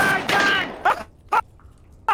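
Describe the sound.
Gunshots from a kitchen gun used to clean a greasy hob and grubby tiles: a few sharp, loud bursts at irregular intervals over a rough, noisy background.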